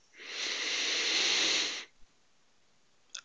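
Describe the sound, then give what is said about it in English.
A single deep breath in during a guided breathing exercise makes a smooth, airy hiss lasting about a second and a half, then stops into near silence, followed by a tiny click. “Close your eyes if it's safe to do so, and let's take a few deep breaths to unfreeze our minds in order to accept change. In”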